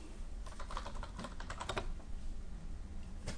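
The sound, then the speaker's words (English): Quick clicking of computer-keyboard typing, a fast, uneven run of faint keystrokes over a steady low background hum. “So, type it in there.”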